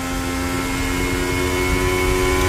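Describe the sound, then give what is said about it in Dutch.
Onboard engine sound of a Formula 1 car during the 2023 United States sprint race, a loud, steady high-revving drone with a strong harmonic whine that holds level throughout, with no talk. “Onboordgeluid komt bij Fernando Alonso vandaan”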